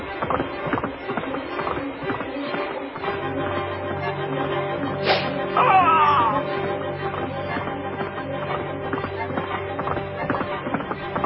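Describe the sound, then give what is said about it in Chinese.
Hoofbeats of a horse ridden off at speed as a general leaps into the saddle, a continuous rapid clatter with no speech, over a dense steady background. “李广一看机会不可失，就立刻的跳上马。”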